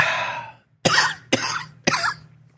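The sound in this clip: Three sharp coughs set off by an itch in the throat burst out in quick succession, each a short harsh rasp with a brief ragged tail, following a moment of throaty voiced sound.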